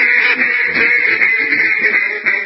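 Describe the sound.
A duck quacking sound effect: loud, buzzy, nasal quacks run together almost without pause, heard alone.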